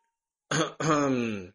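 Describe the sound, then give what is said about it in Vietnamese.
A light cough, heard as a short throat-clearing burst followed at once by a longer voiced rasp, alone and fairly clear. “ho nhẹ một tiếng”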